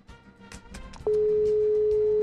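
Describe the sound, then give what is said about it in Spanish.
A phone ringback tone from a call that goes unanswered. A loud, steady tone starts about halfway through and holds to the end, after a stretch of mixed low background noise. “Sí sonó. Ahora ojalá conteste. Ya sonó ya. Pero no contesta.”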